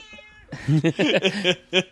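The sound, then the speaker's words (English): A cat meows in a quick run of short, chirping, tonal calls, fairly loud and without other sounds, followed after a brief pause by one more separate meow. “The cat. The cat's just talking about their favourite kettle sours.”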